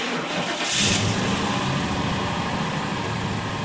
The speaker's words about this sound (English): drive carefully! You're backing out of the driveway into a busy highway.